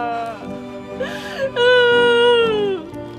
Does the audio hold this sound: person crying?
yes